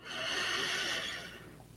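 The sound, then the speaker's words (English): A deep breath drawn in through the nose during a guided relaxation exercise: a soft, steady airy hiss that swells quickly, holds for about a second, then fades away, with no talking. “Let's just start by taking in a deep breath right in.”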